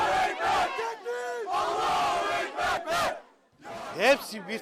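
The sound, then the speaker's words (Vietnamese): Erdogan supporters celebrate in the streets of Turkey after preliminary election results, with loud shouting and chanting crowd voices in bursts. The noise dips briefly near the end, then the cheering rises again. “Trong khi đó, những người ủng hộ ông Erdogan đã đổ ra đường để ăn mừng sau khi Ủy ban bầu cử tối cao Thổ Nhĩ Kỳ công bố kết quả bỏ phiếu sơ bộ.”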